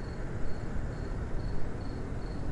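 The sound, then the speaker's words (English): Insects chirping at night: a steady series of thin, high chirps repeats at a regular pulse over a loud, broad background hiss. “Hear that? Got some...”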